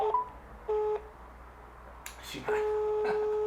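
Electronic telephone call tones while dialing a phone placed inside a microwave oven: a few steady beeps separated by gaps, with a longer tone near the end. Faint clicks and handling noise fall between them.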